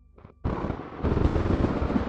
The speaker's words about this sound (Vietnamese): Tiếng sấm nổ vang trời